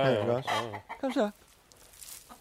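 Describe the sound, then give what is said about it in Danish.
Chickens and a rooster clucking in a hen house: a few short, throaty harmonic clucks and calls bunched in the first half, then near quiet. “Og det er hanen, det der. Nå ja, det kan jeg godt se. En han.”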